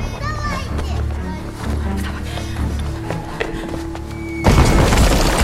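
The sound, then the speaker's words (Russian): An explosion in a war film: voices talk over a busy background, then a sudden, heavy blast erupts and roars on until the end. “Пригибаются от взрыва.”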